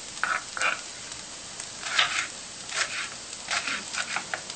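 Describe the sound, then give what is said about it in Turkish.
Onions sauté in a pan, giving a soft, continuous sizzle broken by repeated brief bursts of scraping and stirring, with no voices. “Evet, soğanlarımı çok güzel bir şekilde kavurmaya devam ediyorlar. Kavurmaya.”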